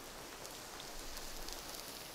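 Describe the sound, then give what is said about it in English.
Rain patters against a window in a steady, soft, continuous hiss with faint scattered drop ticks and no break. “we're bundled up inside together as the rain pitter-patters against the window.”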